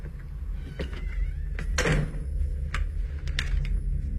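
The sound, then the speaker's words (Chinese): A door is pushed open during a tense scene, giving a few short knocking and scraping noises over a constant low hum. No voices are heard. “话音刚落，莉比推门而入，枪口直指妮可的要害。”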